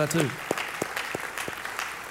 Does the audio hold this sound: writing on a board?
no